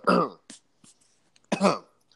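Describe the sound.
A man clears his throat in two loud, rough bursts, one at the start and one near the end, with a few faint short noises between them.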